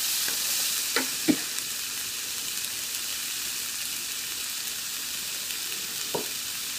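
Onions frying on a small tabletop stove give off a steady, even sizzling hiss, broken by a few brief clinks of a utensil stirring the pan.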